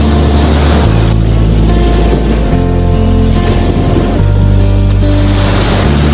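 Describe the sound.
Waves rolling in at the beach, a loud, continuous roar of surf with a deep rumbling low end and no pauses throughout.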